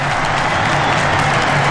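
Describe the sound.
Football crowd roaring as Denmark scores at a World Cup: a loud, dense, unbroken wash of cheering and clapping that holds steady for the whole short moment.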